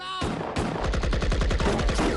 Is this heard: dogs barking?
no

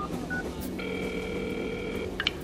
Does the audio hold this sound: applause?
no

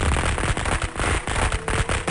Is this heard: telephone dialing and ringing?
no

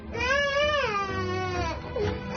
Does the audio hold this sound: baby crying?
yes

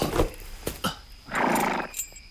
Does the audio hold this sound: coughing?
no

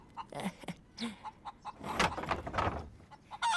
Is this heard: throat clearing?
no

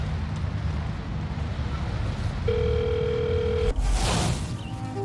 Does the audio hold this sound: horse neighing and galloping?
no

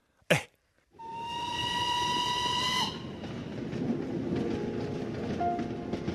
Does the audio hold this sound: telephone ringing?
no

